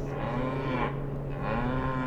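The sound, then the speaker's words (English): Cattle mooing in distress as winds shift and planes and helicopters pass overhead, with long, low, drawn-out bellows that overlap and run almost without a break at moderate loudness. “Cows start howling in distress.”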